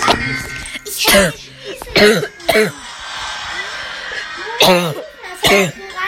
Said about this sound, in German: Ah, oh, sorry. Ich hab mich gerade verschluckt.